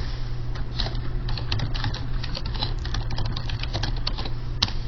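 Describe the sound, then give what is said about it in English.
Typing on a computer keyboard: rapid, irregular key clicks over a steady low hum. “You can type some new things.”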